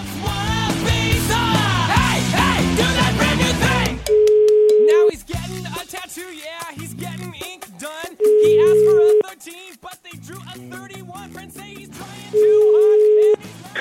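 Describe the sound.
A telephone tone plays while a call is placed: three steady, mid-pitched beeps of about one second each, evenly spaced roughly four seconds apart, with talk and other sound between them.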